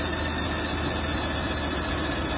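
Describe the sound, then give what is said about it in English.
A car engine runs with a steady low hum and a dense mechanical roar, holding an even level throughout with no clear change in pitch. “hearing that noise every time I'm shifting up and down, like the engine speed up,”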